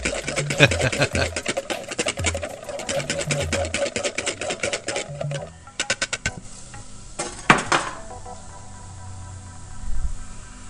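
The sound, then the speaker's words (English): A whisk beats egg yolks in a medium bowl, making rapid, steady metallic clicking for about five seconds, then a looser, quieter clatter. “Now, in a medium bowl, we're going to whisk the egg yolks until frothy. Whisk them until they're frothy.”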